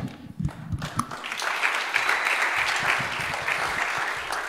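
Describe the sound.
Church audience clapping during a Sunday evening service to welcome a guest preacher up. The applause starts after a second and stays steady and dense to the end.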